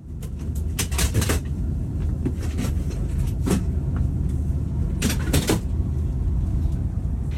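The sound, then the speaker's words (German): On a night train, a rail worker folds seats into two-tier sleeping berths, making a few sharp clattering clacks over steady, low train rumble. “Was ihr da gerade hört, ist ein Bahnmitarbeiter, der wirklich so von Platz zu Platz geht und die Sitzplätze zu Schlafplätzen umbaut.”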